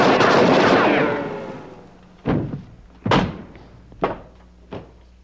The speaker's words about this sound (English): Why don't you watch where you're shooting? I got him, didn't I? Yes, right through my sweater.